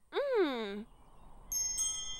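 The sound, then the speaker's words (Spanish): Small, noisy bells jingle with bright, ringing high tones in two quick strikes that linger briefly, following an earlier sliding voiced tone. “¡Son unas campanillas ruidosas!”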